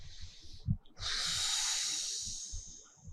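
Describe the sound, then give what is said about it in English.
A deep breath: a hissing inhale followed, after a brief pause, by a long, steady airy exhale lasting about two seconds, heard alone without talk. “Take a breath.”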